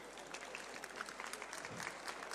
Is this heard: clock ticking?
no